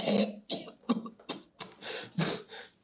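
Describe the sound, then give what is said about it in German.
Repeated coughing and throat clearing from a tabletop role-playing game, voicing a character who can barely breathe through the nose. A rough series of harsh, breathy bursts comes in quick succession, with no speech around them. “Ich versuch's durch den Mund. Äh, ganz, ganz wenig. Und du hustest sofort.”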